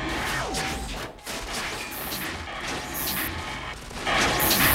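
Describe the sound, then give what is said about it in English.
Gunfire and a car explosion in a RoboCop film scene, where a robot shoots a police officer and blows up a car. Loud, dense bursts and crashes are heard, with a brief lull before the middle and a heavier surge at the end. “Outside, a policeman hiding behind a car fires at Kane, but the robot shoots him, then blows up the car.”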